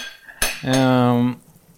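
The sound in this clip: Cutlery on a plate as food is served while cooking: a sharp metallic click, then a sustained ringing scrape lasting about half a second before fading to quiet.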